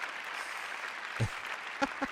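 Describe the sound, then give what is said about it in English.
A studio audience applauds in a steady, even wash of clapping, fairly quiet, with a few short vocal interjections breaking through near the end. “Now, give yourselves a round.”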